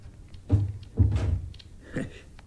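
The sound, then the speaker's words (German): A door being closed, heard as a few soft, muffled thuds spaced apart, fairly quiet, with no clear voices. “Und schließ die Tür.”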